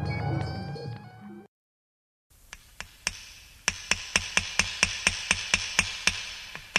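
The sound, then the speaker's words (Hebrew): Hammer blows drive nails into the walls of a sukkah: many sharp, evenly spaced strikes in a steady rhythm that grow a little louder, following a brief burst of other sound and a moment of silence. “החזיקו חזק, ילדים, עוד כמה מסמרים. זהו, גמרנו. הדפנות מוכנות, כבר מסיימים.”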